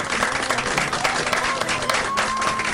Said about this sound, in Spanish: así que un aplauso para ellos.